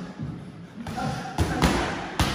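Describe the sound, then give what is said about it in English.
Punches thud during a boxing training round: a few dull, heavy impacts land one after another over a low background rumble. “Luke, compose yourself. Throw those punches properly. You're throwing to miss.”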